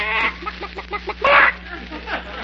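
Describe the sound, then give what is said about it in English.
A chicken clucks in a quick run of short, rhythmic clucks, with a louder, higher squawk partway through, then a few softer clucks. “They didn't steal our chicken after all.”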